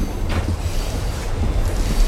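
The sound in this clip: A train runs on its rails, a steady low rumble with a rhythmic clickety-clack of the wheels throughout and no voices.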